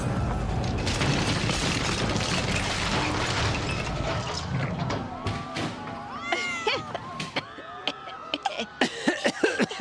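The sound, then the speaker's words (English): A building crashing into the ground and exploding, heard as a dense, loud roaring rumble for about five seconds that thins into scattered sharper clatters and crackles. “Did a building just really explode behind us?”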